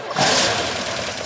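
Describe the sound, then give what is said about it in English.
A car engine that needs an expensive repair turns over and catches into a rough, rumbling run. The loud engine noise continues steadily, with a small surge near the end. “That is the sound of an expensive car repair about to happen.”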